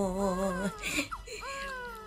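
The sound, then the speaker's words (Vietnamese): An infant cries, a sustained high wail that breaks off into a short, choked sob before the crying resumes, loud and clear. “Ngoan quá, ngoan quá, nín khóc rồi này.”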